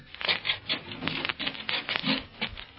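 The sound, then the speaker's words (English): Shoes scraped on a doormat to clean off mud: many rough, brushing rubs in a quick, slightly uneven back-and-forth rhythm, with no voices. “Scrape the mud off your feet.”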